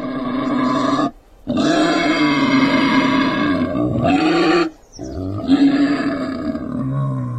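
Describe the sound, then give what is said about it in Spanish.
A wild boar lets out loud, rough, deep grunting roars in long drawn-out bursts, broken by two short pauses. “Vamos con las opciones. A es un cerdito. B es un jabalí. C es un toro. ¿Lo tienes? Se trata de un jabalí.”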